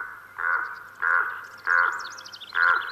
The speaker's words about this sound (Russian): Вдруг подал голос ворон. «А чего это он?» – удивился я. «Разве он не каркает, как ворона?»